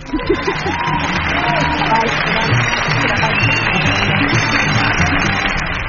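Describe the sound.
Audience applause and cheering form a loud, dense wash of clapping mixed with crowd voices and a few whoops, holding steady throughout.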